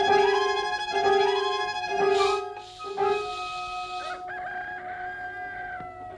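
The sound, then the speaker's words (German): Rooster crowing and hens clucking, with the hens feared to be sick. Several loud, ringing harmonic calls come one after another, broken by short, rough clucks and flutters, with no talk. “Mir gefallen die Hühner nicht, James. Ich fürchte, sie sind krank. Bei den Hühnern fängt es an.”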